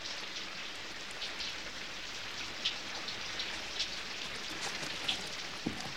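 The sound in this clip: Rain falls in a steady, even hiss, with occasional brighter drop taps scattered through.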